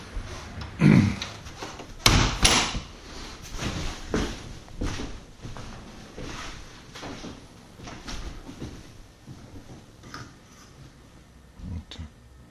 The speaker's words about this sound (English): let me go ahead and shut this front door.